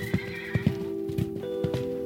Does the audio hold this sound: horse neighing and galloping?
yes